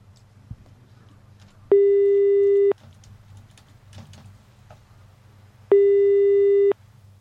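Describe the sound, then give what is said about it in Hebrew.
A telephone line signal sounds while a call is placed to a listener: two steady, one-second electronic tones separated by a long pause, over a low background hum. “אנחנו הולכים לחייג לאחד מהמאזינים ולבשר אותו בבשורה טובה”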